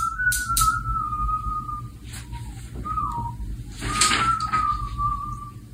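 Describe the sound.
A 14-year-old boy whistles while cleaning his desk, a few unhurried, clear notes, some held long with gentle pitch slides and pauses between. Soft knocks and rustles from handling objects come through underneath.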